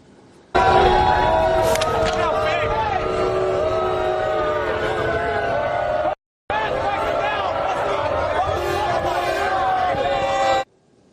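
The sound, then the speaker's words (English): Knicks fans in the arena make a loud crowd reaction as Donald Trump arrives for the Knicks-Spurs NBA Finals game. The dense, continuous shouting and voices break off briefly near the middle, then resume at full strength. “Do you want to see the big, warm New York welcome that actual Knicks fans gave him when he arrived at the venue tonight?”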